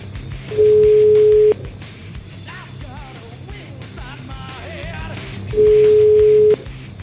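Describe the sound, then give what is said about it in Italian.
A telephone ringback tone sounds while a call is placed: two steady, mid-pitched tones of about a second each, separated by a long pause, over a constant low background. “io volevo chiamare Sgarbi per un altro motivo. Vediamo se lo troviamo, va. Eh. Proviamo.”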